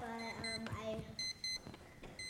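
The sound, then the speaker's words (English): An alarm clock beeping: short, high, bright electronic beeps in quick pairs and bursts, repeating in a clipped pattern at moderate loudness. “what is it doing? It's beeping. Wakes me up in the morning so that I'm not late.”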